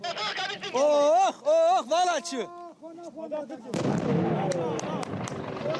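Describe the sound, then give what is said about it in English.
Gunfire as Kurdish fighters shoot at an Islamic State lorry bomb: loud shouting voices first, then a dense burst of sharp, cracking shots over heavy rumbling noise. “"Hit it," shouts the Kurdish commander as his men open fire on the lorry bomb. IS has no more potent weapon, but our allies stand their ground. They shoot the driver and the attack comes up short.”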